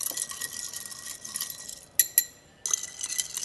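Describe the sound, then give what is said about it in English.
A spoon stirs ice in a glass of cocktail made with pecan extract, lemon oil and orange bitters, giving bright, rapid rattling and clinking. Two sharp clinks ring out near the end, then a short pause before the rattling resumes. “Add some ice. Take our spoon. Stir it up.”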